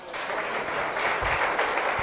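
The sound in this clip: An audience applauds for itself at a public event, a brief burst of dense, steady clapping that stays loud from start to finish.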